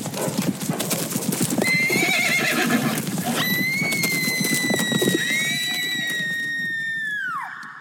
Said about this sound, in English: the night before the wedding, she was trampled to death by a herd of palominos.